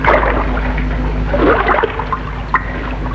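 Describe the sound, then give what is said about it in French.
Trickling water near a pond reached through brush, a soft continuous babble of liquid with scattered small splashes over a low, steady hum. “Au bout d'un moment, elle entend le bruit de l'eau.”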